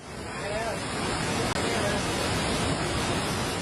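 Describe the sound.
Flash-flood water rises near campsite tents with a heavy, continuous rushing roar, dense and unbroken from start to end.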